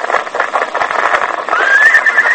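Horse neighing while being ridden along a trail: a single high whinny rises near the end over rhythmic clip-clop of hooves.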